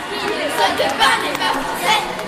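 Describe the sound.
Football fans watching a France women's match in the Théâtre de Montreuil make crowd noise, a dense mix of excited chatter and raised voices with several louder swells.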